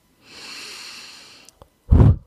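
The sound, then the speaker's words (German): A person breathes deeply, drawing a long, steady, hissing breath. After a brief pause comes a short, much louder, forceful breath out. There is no talk. “Tief ein- und ausatmen.”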